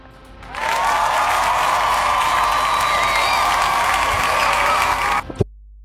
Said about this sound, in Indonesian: Kita kasih tepuk tangan ya.